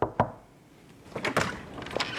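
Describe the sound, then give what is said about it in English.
An apartment door is opened. A quick pair of hard thuds comes first, followed after a short lull by quieter clunks and rustling movement, all fairly faint. “opens the door of the apartment where she's been staying”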